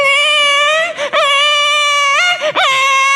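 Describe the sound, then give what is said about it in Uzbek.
A baby cries in a loud, sustained, high wail. The pitch wavers throughout, and two short breaks for breath interrupt the crying. No one talks. “Chaqaloq yig'layapti, qarang.”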